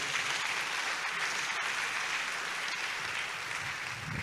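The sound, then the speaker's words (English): A church audience claps along during a sermon, a dense, sustained wash of many hands clapping that holds steadily for over four seconds. “If you believe it, why don't you put your hands together?”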